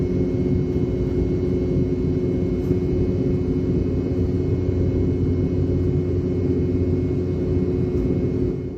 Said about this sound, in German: BR-715 des britischen Herstellers Rolls-Royce. Sie wurden speziell für die Boeing 717 entwickelt und tönen hoch oben so.